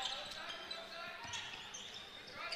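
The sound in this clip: A basketball is dribbled during a game, its bounces faint under crowd noise and voices.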